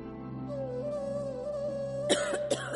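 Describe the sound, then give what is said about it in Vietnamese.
A woman coughs a few short, harsh times near the end, over a steady sustained musical tone and a low background drone. “Bỗng một cơn ho bất chợt kéo đến, làm nàng đánh rơi mâm lá dâu xuống đất. Nàng lấy tay che miệng, ngăn cơn ho đang chợt trào.”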